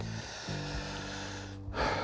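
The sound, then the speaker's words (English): A person gasps for breath, a sharp intake of air near the end, after running short of breath while talking, heard over a faint, steady low hum. “Hang on, sorry, I, I run out of breath sometimes.”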